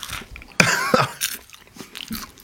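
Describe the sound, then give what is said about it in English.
A crunchy bacon-and-cheddar snack bitten and chewed: one sharp, loud crunching bite followed by a few softer chewing crunches, with no talk. “Where's the bacon? I don't taste anything. I sucked all the bacon off. Yeah, where's the cheddar? And you're right. It's very crunchy.”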